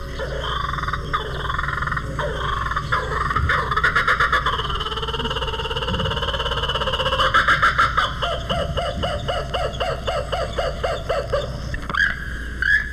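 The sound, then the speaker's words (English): Laughing call of a kookaburra: a low, rough chuckling wind-up, like an old car trying to start, builds into loud, rapid cackling bursts that repeat in a steady rhythm to the end. “the kookaburra, winds up for his call, it sounds like an old jalopy trying to start. But the call is worth waiting for. It sounds like this.”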